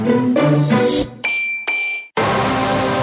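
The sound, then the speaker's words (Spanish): An advertising sound for a new ranchera grilled chorizo sausage: a few dense tonal blasts give way to a bright metallic ding that rings out, then a loud, steady hiss like sizzling takes over. “Así suena el nuevo chorizo parrilla ranchera.”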